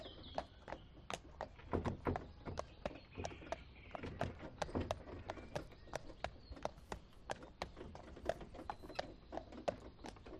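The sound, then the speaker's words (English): A horse pulling a trap through a village clip-clops with many steady, evenly spaced hoof beats, faint and unbroken throughout. “You climb up and settle back as the trap moves on through the village.”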